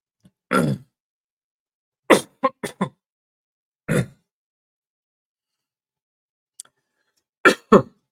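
Coughing fits after a swig of water: several harsh, throaty coughs in separate bursts, including a quick run of three or four, with silent gaps between and one faint catch of breath near the end.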